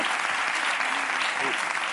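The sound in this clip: Audience applause at a women's boxing event: a dense, even wash of clapping that runs unbroken through the whole clip, with faint voices mixed in.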